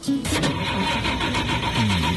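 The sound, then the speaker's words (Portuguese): A Chevrolet Chevette engine starts and then keeps up a loud, steady, rough mechanical rumble through the whole clip, with no talking over it. “Lotação completa, vamos ligar o motor do nosso amarelinho.”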